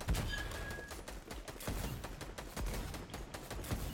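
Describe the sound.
Rapid gunfire from a spray weapon in a video game: many quick shots crackle in a dense, continuous automatic stream. The volume stays steady throughout, with no voices.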